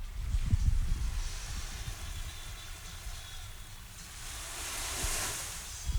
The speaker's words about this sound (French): Je sais pas si on entend, c'est le bruit de vagues.